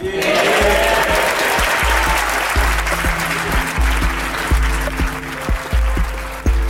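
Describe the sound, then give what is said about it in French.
Long standing ovation in the House of Commons chamber after a speech: dense, sustained applause of many hands clapping, loud and steady from start to finish. “Une longue standing ovation a suivi le discours de John Bercow lundi dernier à la Chambre des communes.”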